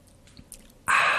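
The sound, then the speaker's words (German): A sip of a drink: a few soft mouth clicks, then a sudden loud, breathy slurp that holds to the end. “Ich trinke nochmal kurz einen Schluck und dann starten wir da rein.”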